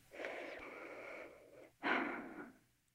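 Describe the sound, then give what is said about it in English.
A deep breath, two long breathy phases with a brief pause between them. The second phase is louder and shorter than the first. It is heard alone, with no talk. “And I take a deep breath.”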